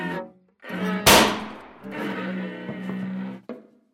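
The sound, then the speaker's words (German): Gunshot during a tense confrontation: a single sharp, loud crack that cuts through sustained low tonal sounds, followed by a lingering rumble and further droning tones. “Wer hat hier geschossen?”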